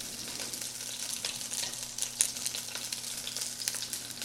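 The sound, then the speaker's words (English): Hot oil sizzles and splatters in a pan while unevenly sized pieces brown before braising. A steady hiss runs throughout with scattered sharp crackles and pops, and no voices are heard. “Ow, splattering oil on me.”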